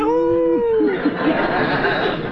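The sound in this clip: A man's voice imitates a howl with a short, sustained, tonal wail, answered at once by a burst of laughter and chatter from a crowd.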